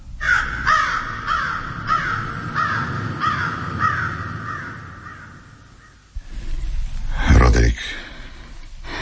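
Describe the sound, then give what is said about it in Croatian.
A raven cawing in a rapid series of harsh, rasping calls, repeated steadily for several seconds before the calling stops. “Gavran. Gavran. Da. Gavran.”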